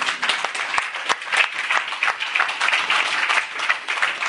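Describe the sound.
An audience applauds during a church sermon. The clapping is dense and sustained, with sharp individual claps standing out, and stays fairly loud and steady throughout.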